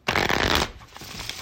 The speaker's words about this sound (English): It's the sound of card shuffling, you know what that means.